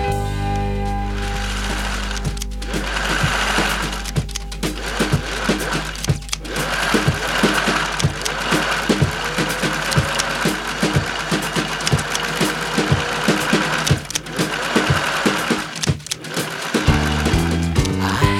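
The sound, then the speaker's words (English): A sewing machine stitches cloth in a fast, steady, rhythmic clatter that runs unbroken through the whole clip, with a constant mechanical hum beneath the stitching. “A sewing machine was I. I'd go up and down over and over again and watch the cloth stitch by.”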